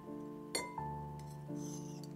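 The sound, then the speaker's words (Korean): An animal bone clinks against a plate with two bright, glassy strikes close together, each leaving a clear ringing tone that lingers steadily afterward. “청량한 그 소리는 영락없이 동물의 뼈가 접시와 맞부딪히는 소리였다.”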